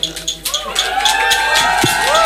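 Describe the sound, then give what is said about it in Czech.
A concert audience cheers and applauds, with loud whoops and shouts over a dense, continuous bed of crowd noise that stays strong throughout. “Prosím, ještě větší potlesk zasluží, podle mě.”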